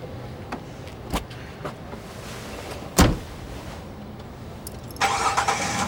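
A car pulling away: a few faint clicks, then one loud door slam, followed by the engine starting up and running steadily at the end.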